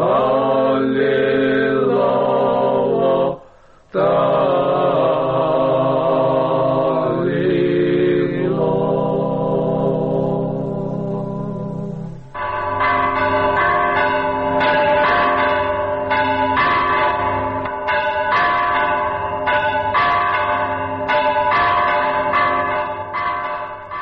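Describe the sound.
Church bells ring at the Georgian Monastery of the Cross in Jerusalem, recorded in 1967. Loud, sustained overlapping peals pause briefly, then give way to a long, even run of many rapid repeated strikes.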